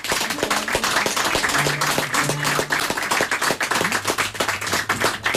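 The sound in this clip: Audience applause: many hands clapping in a steady, moderately loud patter with brief faint voices woven through it.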